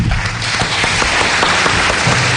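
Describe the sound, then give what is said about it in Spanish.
An audience applauds two guests, an institute director and a regional director general of vocational training. The clapping forms a thick, steady wash of many hands that stays loud throughout the short stretch. “Un aplauso para los dos.”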